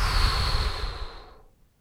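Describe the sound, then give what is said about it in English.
A deep exhale through the mouth during a guided breathing exercise: one long, breathy rush of air that starts strong and tapers away to silence, with no talking. “Big inhale. Exhale through your mouth.”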